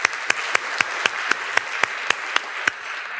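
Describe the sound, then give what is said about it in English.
Audience applause: a soft, steady crowd clapping wash beneath one loud, sharp, evenly spaced clapper striking many times in a regular beat. “Give those folks a round of applause, please, folks.”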